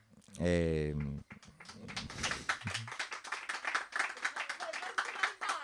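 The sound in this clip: An audience at a spoken-word event breaks into applause. A voice is heard briefly at the start, then dense, steady clapping continues to the end.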